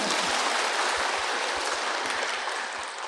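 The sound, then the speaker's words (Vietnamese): An audience at a Buddhist dharma lecture breaks into applause, a dense, steady round of clapping that holds evenly for about three seconds and eases slightly toward the end, with no talk over it. “Thiệt, cho một tràng pháo tay nữa.”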